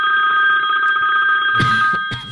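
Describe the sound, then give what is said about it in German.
A modern mobile phone ringtone rings as a bright, steady electronic tone with a rapid warble, then breaks off into brief clattering handling noises as the phone is picked up. “Ich wusste gar nicht, dass du so einen modernen Klingelton hast.”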